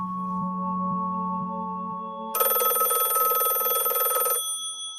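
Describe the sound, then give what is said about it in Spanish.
A telephone rings once with a long, bright, trilling electronic burst of about two seconds, following a steady low hum. “Trece días después de la desaparición de mi hermana, mi padre recibió una terrible llamada telefónica.”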